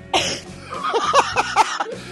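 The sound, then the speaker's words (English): A woman coughs a few times in quick, harsh bursts, loud and alone with no talk over them. “Oh, now you're coughing.”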